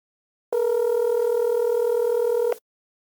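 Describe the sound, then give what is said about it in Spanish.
A telephone rings on an outgoing call: one steady, humming ringback tone that lasts about two seconds, then cuts off into silence. “Vamos a ver si Sergio nos toma la llamada”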